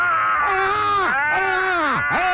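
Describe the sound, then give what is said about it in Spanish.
Two people scream together to vent frustration. It is a loud, sustained, wailing yell whose pitch plunges sharply twice before it swells back up. “Vamos a gritar los dos para desahogarnos sí. por esta injusticia. ¡Gritemos!”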